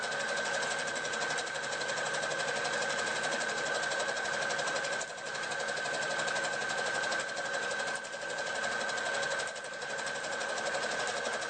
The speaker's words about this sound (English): So back tack a few stitches first just to make sure your stitches aren't going to come undone. and then stitch straight across the top.